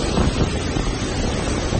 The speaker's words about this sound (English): That's the sound of Hurricane Dorian as it continues to pound the Bahamas.